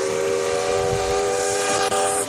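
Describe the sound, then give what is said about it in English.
Steam-type whistle of an Auckland harbour ferry: a loud, sustained, multi-toned blast held at a steady pitch throughout, with one brief dip in level near the end. “Even Hamish is excited with that Auckland Harbour Ferry whistle there.”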